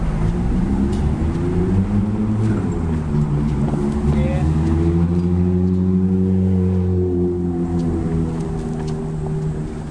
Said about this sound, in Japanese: マジで今の S15 か。 お、 スポーツマシンがすげえ勢いで踏んでたけど。